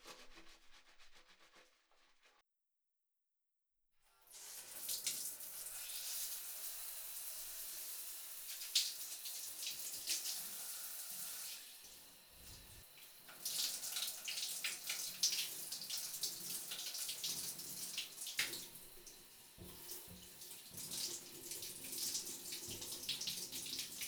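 Water runs from a tap for rinsing after a shampoo. A brief rush breaks off into silence, then a soft, steady flow with faint splashing starts and keeps going.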